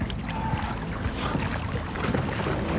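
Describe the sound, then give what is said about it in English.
Wind sweeps over a boat at sea, a steady low rumble and buffeting against the microphone that swells slightly now and then, with no voices. “Wait, the wind, we have wind. There is not much wind.”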